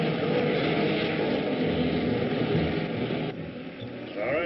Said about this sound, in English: Here it comes, right when Krog figured. Wait till it turns in for a landing.